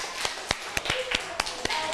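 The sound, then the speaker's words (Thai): Children clap their hands in a steady, even rhythm, with about eight sharp claps spaced roughly a quarter second apart. The claps are moderately soft over a faint background. “เด็กปรบมือกับตัวเองหน่อย”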